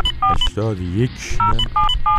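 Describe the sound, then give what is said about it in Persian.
Several short telephone keypad tones sound as a number to the police is dialed. The beeps are interspersed with a person talking. “بله، بنده الان در حال شماره گیری هستم.”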